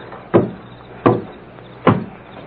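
A large locked drawer being opened, heard as three separate clunks spaced evenly apart, each a sharp hit that trails off quickly, with no voices.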